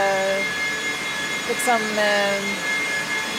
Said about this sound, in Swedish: Det är ett ständigt arbetande system som för bort värmen från servrarna och tillför kyla. Och man blir lite knäpp när man har lyssnat för länge på det här ljudet, tror jag. Servrarnas egna fläktar, det är de som låter.